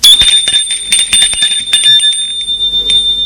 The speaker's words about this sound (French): Et sonne chez Gilles.